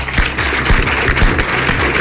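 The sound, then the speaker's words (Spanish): Applause at a city hall ceremony in Salamanca honouring ten centenarians, a loud, dense, steady clatter of many hands clapping together, with a few heavier claps standing out along the way. “Y les vamos a dar un fortísimo aplauso.”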